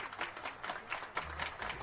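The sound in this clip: Audience applause welcoming two guests onto a stage: a steady, dense wash of many hands clapping at once, fairly faint and continuous, with no voices standing out.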